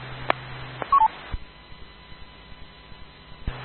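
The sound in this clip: Telephone keypad DTMF tones sound as a few short, clean electronic beeps at differing pitches, faint over a low steady hum, with small clicks scattered between them.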